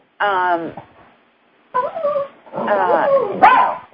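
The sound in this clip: A dog whimpers and yips in three whiny, high-pitched bursts with short pauses between them. The last burst is the longest, with several wavering cries.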